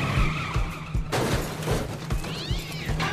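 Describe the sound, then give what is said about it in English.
Car tires squealing as the car peels out in reverse, a sustained shrill screech over a pulsing engine rumble, turning into a wavering squeal near the end. “He presses down the gas and the car peels out in reverse.”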